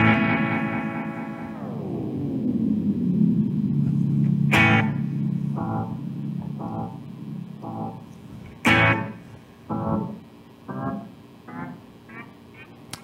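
An electric guitar through a delay effects pedal with the repeats turned up. A sustained note bends downward, then two sharp strums each leave a trail of fading echoes that keep repeating.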